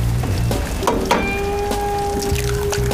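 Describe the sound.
Egg sizzling on a jianbing crepe griddle: a steady crackling hiss runs throughout, with a few sharper pops standing out along the way.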